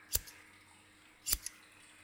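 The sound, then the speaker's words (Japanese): Scissors snipping a person's hair, cutting carefully near the ears: two crisp snips about a second apart, each a sharp metallic cut followed by a softer click, alone against a quiet background. “耳を切らないように。それを、チョキチョキ。”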